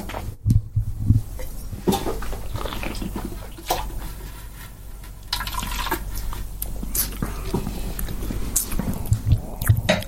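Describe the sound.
Sipping and tasting white wine: wet slurps and swishing liquid in the mouth with a few soft smacks, running as a steady, moderately loud stream of mouth sounds with no talking.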